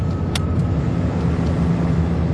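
An aeroplane coming in to land at Croydon gives off a loud, steady, continuous low engine drone with a faint sustained tone and a brief click near the start.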